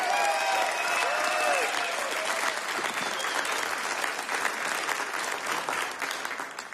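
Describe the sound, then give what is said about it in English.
Audience applause for a performer at a live music show: loud, dense, steady clapping that holds through the whole stretch and only eases slightly at the very end. “Give it up one more time for Calvin Arcena.”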